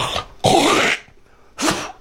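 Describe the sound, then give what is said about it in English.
A person hawking up phlegm and clearing their throat in three harsh, rasping bursts; the middle one is the longest and loudest, with short quiet gaps between them. “Were you about to hawk one up?”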